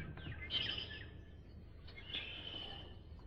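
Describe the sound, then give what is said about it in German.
A blackbird sings outside an open balcony door, giving a few faint, high whistled phrases and chirps over a low steady background hum, with no voices. “Kannst auch ein Vögelchen singen hören. Los.”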